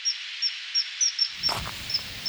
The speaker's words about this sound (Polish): Leci, leci, leci zimorodek, piszczy.